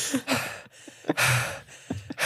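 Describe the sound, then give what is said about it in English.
A sleeping man breathes heavily and laboriously, with a few loud, rough, breathy inhales and exhales in quick succession and no talk. “He's out of breath while he's sleeping.”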